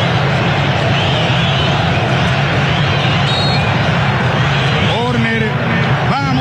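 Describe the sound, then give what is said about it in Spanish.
A football stadium crowd chants for Paraguay, making a loud, continuous, dense roar of massed voices that never lets up. “Paraguay, Paraguay se escucha claramente. Escuchen ustedes un ambiente.”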